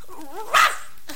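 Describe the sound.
A puppy gives one short, sharp bark, loud and brief, in the middle of a mostly quiet moment.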